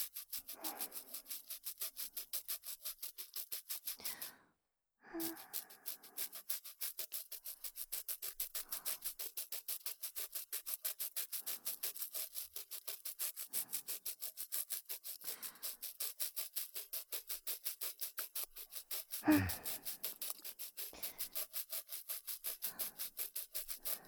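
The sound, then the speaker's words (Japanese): Continuous rubbing of slow, careful tooth polishing: a dense run of rapid, even scrubbing strokes at steady loudness, broken by one short pause early on. “このくらいの力加減で良さそうだな。最後でも焦らず、ゆっくりと磨いていくぞ。 ゴシゴシ。”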